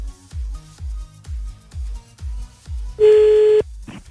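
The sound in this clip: A telephone call being dialed: a steady run of low, evenly spaced thumping pulses, then a single sustained beep tone and a brief final burst.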